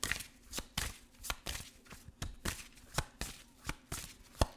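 Tarot cards being shuffled during a Valentine's Day pick-a-card reading: many crisp, rhythmic snaps and slaps of card stock, evenly spaced, with sharper accents now and then.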